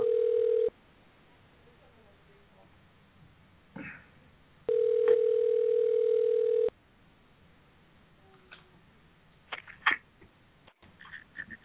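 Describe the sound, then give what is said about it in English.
A telephone ringback tone plays while a call waits to be answered: two long, steady mid-pitched tones separated by silence, followed by faint scattered noises and a voice. “come on, answer the phone.”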